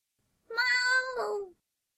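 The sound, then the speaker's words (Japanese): A slender cat with a swollen belly gives a single drawn-out meow, a clear tonal cry lasting about a second that dips lower at its end, with silence around it. “かすかな猫の鳴き声が私の背中を撫でた。”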